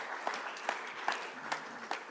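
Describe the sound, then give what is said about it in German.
Audience applause: dense, steady clapping with louder claps standing out at an even beat about five times across the stretch. “Ein Applaus für den Vater.”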